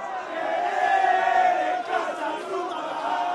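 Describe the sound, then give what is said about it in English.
Argentinian football fans in São Paulo chant a taunting song after their team scores, a loud, sustained mass of voices singing together in unison with a dip in the middle. “They cheered when they scored and immediately launched into their taunting song.”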